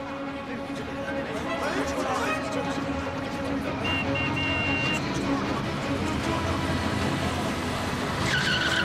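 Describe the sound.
A stolen car is driven off at speed, its engine roaring with skidding, squealing tires in a continuous loud rush, with voices heard over the noise.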